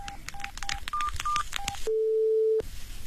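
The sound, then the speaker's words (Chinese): Telephone keypad dialing tones from a mobile phone: a quick run of short, beeping key tones, then a longer, steady, lower tone over faint background noise. “把你的手机打开。 是。 打那个陌生电话”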